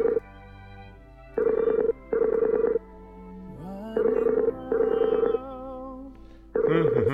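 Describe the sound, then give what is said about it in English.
Skype call ringing tone: buzzy, mid-pitched tone bursts that come in closely spaced pairs and repeat a few times, with a voice speaking in the quieter gaps between them. “God damn, I hate Skype. Right. I'm calling Dr. Charles. It's ringing.”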